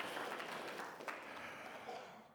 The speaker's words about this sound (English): Let's give the Lord just a round of applause.